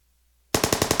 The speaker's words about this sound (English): A private fired a machine gun mounted to the back of a military vehicle as the vehicle rumbled out of Nichols Airfield, just a few miles south of Manila.